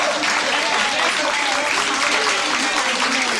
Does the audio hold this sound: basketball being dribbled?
no

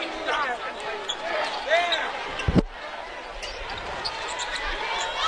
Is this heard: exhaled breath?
no

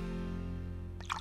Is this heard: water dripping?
yes

